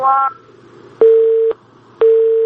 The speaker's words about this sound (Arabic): طيب واضح الاتصال انقطع.